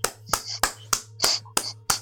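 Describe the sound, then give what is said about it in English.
A slow, deliberate clap: six crisp, evenly spaced hand claps in a steady rhythm over a faint, constant low hum. “That deserved a goddamn clap.”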